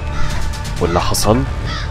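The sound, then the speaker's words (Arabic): Harsh cawing of crows circling inside a room: a few loud, rasping calls in close succession over a steady low rumble. “وادركت وقتها ان اللي بيطير في غربان بتحوم. صوتهم بدأ يبقى اعلى من غنى الستات اللي في الاوضة نفسها.”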